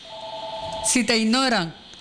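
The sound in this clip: A telephone signals an incoming call with a steady, faint two-pitch electronic tone lasting about a second, then a voice takes over.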